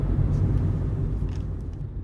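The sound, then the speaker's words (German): A car driving: a steady, low engine and road rumble that holds at an even level throughout, with no sharp events. “Ich fahre hin.”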